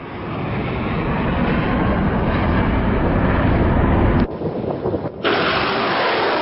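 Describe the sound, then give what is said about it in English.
Missiles being fired on the Yemeni port city of Mocha make a continuous loud, low, rumbling roar that drops away briefly near the end and then resumes, with no voices. “Sounds of missiles being fired on the port city of Mocha, where the Iranian-backed Houthis have just taken control.”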